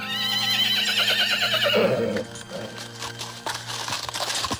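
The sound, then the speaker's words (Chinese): A horse pulling a carriage along a steep cliffside mountain road gives a loud, long, wavering whinny, followed by quieter clattering hoof and wheel noises. “马车在小心翼翼地奔驰，这里地势很险，一不小心就有可能坠下悬崖。”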